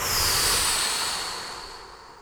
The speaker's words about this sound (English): Take another big breath. Big inhale and blow.